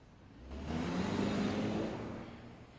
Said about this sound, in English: He gets back in his car and drives off, leaving her standing.